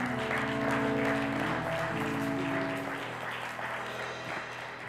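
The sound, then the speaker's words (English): A church audience applauds the children, with broad clapping over sustained low instrumental tones. The clapping is fuller at first and eases off gradually toward the end. “Let the church say amen. Let's hear for these children once again.”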